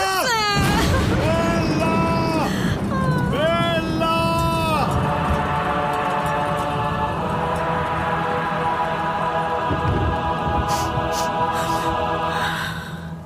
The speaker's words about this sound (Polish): Nie płacz, owieczko.